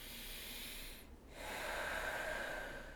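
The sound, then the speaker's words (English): A deep breath as a posture-and-breathing reset, heard as soft airy breathing in two long phases separated by a brief dip, with no talk. “So, for instance, upright posture, deep breath.”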